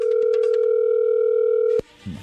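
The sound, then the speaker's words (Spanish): A telephone dial tone while a call is being placed, a steady, loud, unbroken hum that cuts off abruptly with a click, followed by a brief low thump. “A ver, no haga ruido, ahí se está marcando.”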